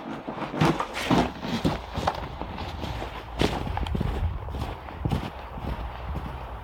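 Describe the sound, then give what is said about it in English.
Footsteps walking down to a garden pump, a steady run of soft, irregular thuds and scuffs on the ground that continues throughout at a moderate, faint level. “I'll show you that. Walk down to the garden pump.”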